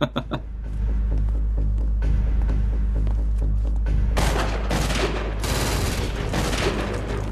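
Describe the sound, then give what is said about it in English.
Heavy gunfire from many guns, a dense fusillade of booming shots over a constant low rumble, growing harsher with loud crackling bursts in the second half. “Many, many guns.”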